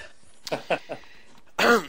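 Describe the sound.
Coughing from someone who has swallowed the wrong way: a few short, sharp coughs in quick succession, a brief pause, then a louder voiced sound.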